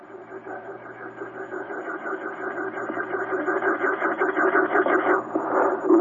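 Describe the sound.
A voice imitates a craft ascending very slowly, producing a buzzing, droning hum with a wavering texture that grows gradually louder over several seconds.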